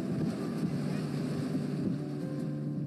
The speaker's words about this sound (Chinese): 这里就是山观景台，然后也称为听风台。 听，为什么是听风台？ 可以在这边听到风。